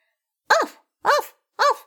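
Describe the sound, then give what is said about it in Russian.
Three sharp barks from a white, fluffy dog at a forester's house in a snowy winter setting, each short, loud and clear, evenly spaced with silence between them. “Опять залаяла собака.”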